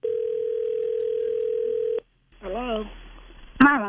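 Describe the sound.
A landline telephone dial tone hums steadily and loudly for about two seconds, then cuts off abruptly; after a short gap a voice is heard.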